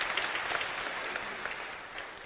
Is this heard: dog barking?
no